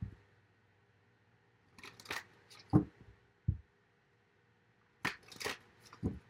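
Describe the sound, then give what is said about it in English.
Tarot cards being shuffled, faint papery riffles and sharp snaps in scattered bursts separated by quiet pauses, as cards slip and scatter. “Let me get some additional cards on it. Oops. Cards are flying everywhere.”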